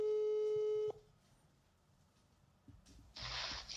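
A telephone call tone: a single steady, buzzy electronic tone of about one second. Low hiss follows, then a burst of brighter noise.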